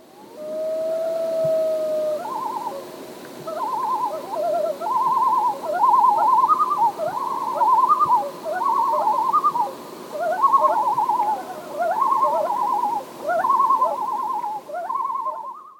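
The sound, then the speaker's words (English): Tremolo calls of a common loon that is disturbed or threatened: a sustained opening note, then many rapid, wavering, laughing phrases repeated in loud bursts, alone with no talk. “you usually hear this when the loon is disturbed or feels threatened, you know, like disturbed, you know, near its nest or something, or, you know, something surprises it. So this is a sound that the loon is not happy at all.”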